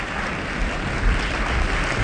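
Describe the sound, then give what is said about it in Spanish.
Studio audience applause greeting the Yale Glee Club's entrance onto the stage, a steady, even wash of clapping with no breaks. “Con estos aplausos saluda el público asistente al estudio auditorio la entrada al escenario del Yale Glee Club.”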